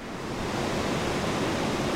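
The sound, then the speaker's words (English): Water pours through the floodgates of a dam holding back a lake at a bridge during normal operation, a dense, constant roaring rush with no breaks or pauses. “This is the sound of normal operations at Longhorn Dam, the structure at the Pleasant Valley Bridge that's responsible for holding back Lady Bird Lake.”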